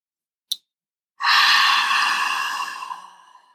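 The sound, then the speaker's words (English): Deep breath during a guided breathing exercise: a brief, sharp intake, then a long, loud, airy exhale that holds steady and slowly tapers off. No talking. “Last one, fifth one, make it count. Inhale deep.”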